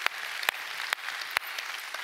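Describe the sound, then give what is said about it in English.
Audience applause at a church service: a steady, bright wash of many hands clapping, with a few sharper claps standing out at an even pace. “Come on, give him a hand.”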